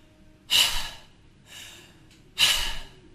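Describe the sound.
Demonstrated chest-breathing inhales in a voice-training lesson: two loud, quick, airy breath intakes about two seconds apart with a softer breath between them, heard alone without talk.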